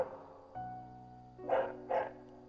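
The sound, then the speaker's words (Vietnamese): A neighbour's dog barks twice in quick succession, two short, faint barks over a low, steady electrical hum. “lúc mà mình không thu âm thì con chó nó rất là yên lành, và mỗi lần mình thu âm là nó lại phá mình. Mình nói thật là mình đang rất là tức con chó hàng xóm này,”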